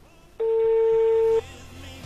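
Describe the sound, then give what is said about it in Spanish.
A single steady telephone ringing tone, about one second long, sounds as a call is placed to a sanatorium. A faint low hum lingers before and after it. “Llamo a Sanatorio San Roque, así tenés que llamar.”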